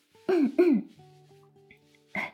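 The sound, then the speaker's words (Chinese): A person clears an itchy throat: two quick, rasping bursts, a soft low hum, then a third short burst at the end. “我自己就干哼哼一下就没事了，没事了啊。”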